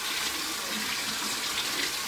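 Tap water runs steadily while potatoes are washed by hand under the stream, a continuous even rush with faint splashing texture and no voices.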